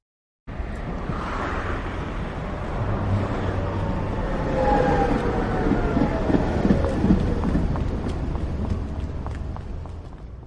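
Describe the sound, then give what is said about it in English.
A tram rolls past in a continuous, fairly loud low rumble, with thin high wheel squeals that sweep across the middle of the pass before the sound settles back to a steady roll. “Tram.”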